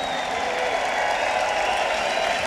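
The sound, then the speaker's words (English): A concert crowd cheering and applauding, a dense, steady roar of clapping and shouting that holds evenly at one level through the short stretch. “So put your hands in the air and make some noise for yourselves right now.”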